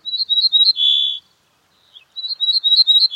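An ortolan bunting, recorded near Nîmes, sings two bright, high phrases. Each opens with a quick run of repeated clipped notes, and the first ends in a lower, drawn-out buzzy note. A short silence separates the two phrases.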